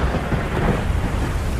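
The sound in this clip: Thunder rolls in a deep, continuous rumble with a steady hiss of rain underneath, loud and sustained throughout without a clear single crack.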